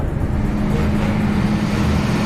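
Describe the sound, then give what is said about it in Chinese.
A loaded supply truck grinds along the high, cold Xinjiang–Tibet highway, its engine a steady, loud low drone with a firm humming tone and broad road rumble, unbroken for the whole stretch and free of talk. “驶着满载物资的卡车行驶在高寒缺氧的新藏线上。”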